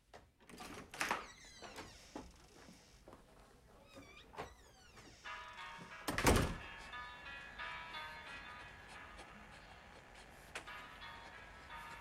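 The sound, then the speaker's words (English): A woman leaving through a door: scattered clicks and rattles of the door, then one loud, heavy thud midway, followed by a quieter, lingering hum with faint clatter. “She gets up, picks up her handbag, and goes over to the door, where she hesitates briefly before heading out without a backward glance.”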